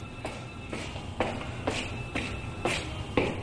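Footsteps walking down into the depths of a bunker, a steady series of soft shuffling steps at an even walking pace, each with a light scuffing tap over a low background hum.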